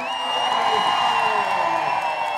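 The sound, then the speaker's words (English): A rally crowd roars its approval for a proposed constituent assembly, a sustained, even wall of cheering and shouting that holds steady from start to finish. “The people roar their approval for the constituent assembly and start doing the wave.”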